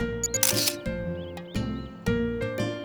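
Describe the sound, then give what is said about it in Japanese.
A camera shutter fires as a photo is taken beside a flower bed: one crisp, noisy mechanical burst, followed by a couple of softer, sharp clicks over low background hum. “じゃ撮るね。3、2、1。”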